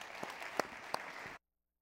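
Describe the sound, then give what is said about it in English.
Faint applause from a church audience welcoming a speaker to the stage: a soft, dense patter with a few sharper claps that stops abruptly after about a second and a half. “So, if you would, put your hands together and let's welcome, uh, welcome Carlos to the stage.”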